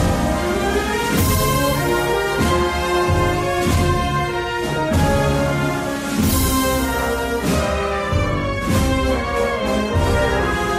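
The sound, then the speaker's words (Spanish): A band plays a romantic-style Holy Week funeral march in Huelva, with full sustained brass chords over steady, evenly spaced drum strokes, loud and continuous throughout. “Y hace una marcha fúnebre que no es tan fúnebre, porque muchas veces pensamos en el fúnebre como una marcha...”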